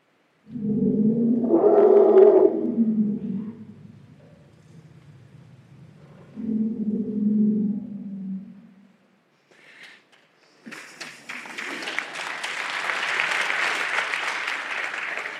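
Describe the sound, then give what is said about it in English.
Elephants call at the birth of a baby: deep, low rumbling calls in two long swells, then a loud, harsh, noisy blast that is sustained for several seconds. “Elephants, for example, have a specific signal for honeybee. So I'd love to share just one of these sounds with you. It was recorded at a moment of great joy and celebration, the birth of a new baby.”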